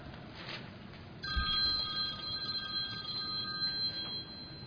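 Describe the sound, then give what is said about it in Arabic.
A telephone rings with faint, steady electronic tones that start after a moment of quiet and continue to the end over low background noise. “أتى التليفون وأتت رسالة”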